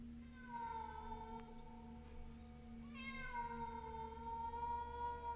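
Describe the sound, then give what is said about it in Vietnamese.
Cat meowing in a small alley, an injured black cat hiding under a trash pile with a rusty wire through its leg: two long, wavering, tonal meows over a steady low hum. “trong con hẻm nhỏ đột nhiên vang lên có tiếng mèo kêu”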